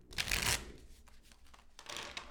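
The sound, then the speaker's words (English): Tarot cards are shuffled in a soft papery riffle, with a louder burst of flicking at the start and another toward the end. “Well, let's answer the question with the tarot cards.”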